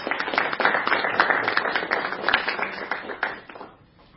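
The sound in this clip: Audience applause welcomes a speaker to the stage: dense, steady clapping at moderate volume that thins and fades out at the very end.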